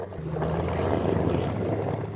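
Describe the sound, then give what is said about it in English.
Steady droning motor of a Zodiac rubber dinghy ramming through thick sea ice off Antarctica: a continuous, fairly loud rumble with low humming tones and broad rushing noise that holds evenly throughout, with no voices. “We're having to ram our way through incredibly thick sea ice in what's called a Zodiac. It's a glorified rubber dinghy.”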